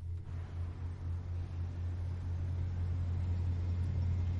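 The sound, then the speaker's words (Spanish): A car engine rumbles low and steady as a man drives after getting into his car. The drone is continuous throughout, with no voices. “Sale de la cama y al poco está dentro de su coche.”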